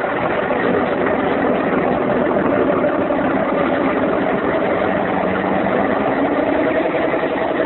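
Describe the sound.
A vehicle engine runs at a steady low rumble as a car is driven through thick fog. The drone stays even and unbroken throughout, with no voices.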